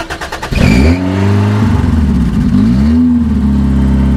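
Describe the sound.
An old car with no muffler cranks over with a few quick starter pulses, then catches and roars, revving loudly up and down with a raw, rattling exhaust note.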